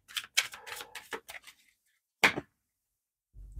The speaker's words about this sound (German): Ich zeige Ihnen auch dann, dass die Karten jetzt ein bisschen anders liegen und ich nehme mal die Lenormand-Karten dazu.